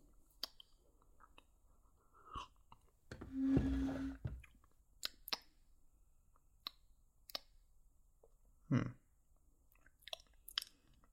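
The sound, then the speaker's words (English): A sip of warm, bitter tea, heard as one soft, drawn-out slurp in the middle, surrounded by a few faint wet clicks and mouth sounds, with no talking. “This tastes interesting. It's bitter, even when compared to normal tea. But it's nice, warm.”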